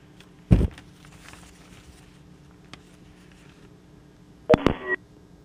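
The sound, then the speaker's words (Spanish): A telephone line tone after a dropped call: a short burst of electronic beeping near the end, following an early brief thump and quiet line hiss. “Se me cayó la llamada”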